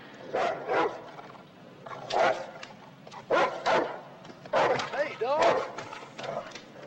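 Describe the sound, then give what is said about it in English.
Dog barking while chained at the foot of a building's stairs on a residential street at night in light snow; a few uneven bursts of loud, rough barks separated by short pauses over a low steady background. “A dog right chained at the foot of stairs up to a building.”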